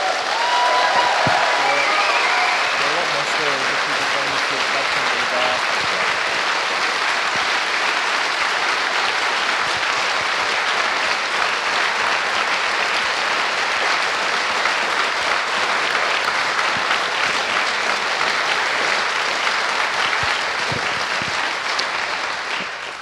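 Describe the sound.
Audience applause for a team at the end of a talk: dense, steady clapping from a crowd that stays loud for the whole stretch and eases slightly at the very end.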